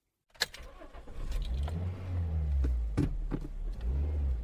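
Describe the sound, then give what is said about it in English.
Car driving along a scenic Highland road through the Cairngorms: after a moment of silence, a steady low engine rumble begins abruptly, with a few sharper knocks and clicks over it. “Instead, let's bring our focus back to the road. I'm on the Snow Roads, a scenic linear drive through the heart of the Cairngorms.”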